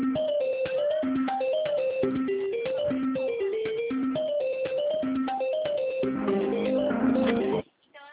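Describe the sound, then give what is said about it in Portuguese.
Tinny, band-limited hold music plays over a phone line during a call about a card, a steady electronic melody of repeating notes that runs without pause and cuts off abruptly near the end. “tô com musiquinha, não entendi. Começou a tocar uma musiquinha.”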